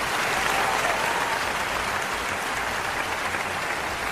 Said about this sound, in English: Thank you. Okay, you can stop now. Stop. Thank you. If you can please stop clapping for 5 minutes,